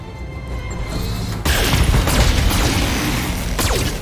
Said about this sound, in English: We're going to fire everything. We're at 85% chance to hit.